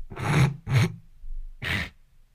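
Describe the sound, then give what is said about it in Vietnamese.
Sniffles from a stuffy nose during changing weather: three sharp, breathy nasal sniffs, two in quick succession and a third after a short pause, fairly loud and alone. “thỉnh thoảng tôi mấy ngày mà này thời tiết thay đổi, tôi hơi khụt khịt một tí, nó hơi khó chịu. thoảng phải hắng giọng, nó hơi mất lịch sự tí.”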